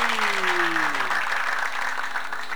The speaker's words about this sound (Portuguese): Eita glória, deixa eu bater palma para a irmã Márcia, porque foi ela quem ligou o rádio hoje.